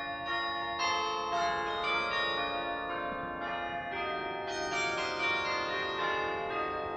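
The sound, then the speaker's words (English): A carillon is played, its many tuned bells sounding a melody of overlapping, ringing tones. The bells sustain and blend steadily throughout, with no voices. “To me, it's a gigantic percussion instrument, the largest of all percussion, or any instrument for that matter. And the texture of the music and everything is much more like a piano or a harpsichord.”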